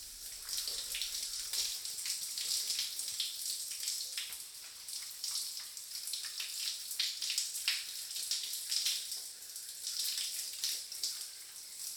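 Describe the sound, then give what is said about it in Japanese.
Warm water is poured over hair to rinse out shampoo, a soft, continuous splashing hiss with uneven fluttering, faint and steady throughout with no voices. “シャンプーを流しますね。 お湯かけますね。”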